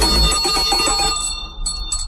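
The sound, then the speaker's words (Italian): A small bell rings with bright, sustained high tones that stay loud and steady, dip briefly, then return in a few short rings toward the end. “Sali in sella, è suonata la campanella.”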